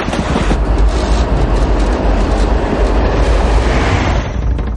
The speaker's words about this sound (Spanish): Pasa un tren junto a la casa de Gavin